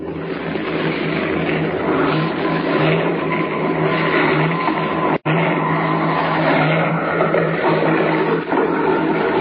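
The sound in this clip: A light airplane's engine roars steadily as it sets down beside railway tracks. The loud, continuous rushing drone holds throughout, broken only by a brief instant of silence midway.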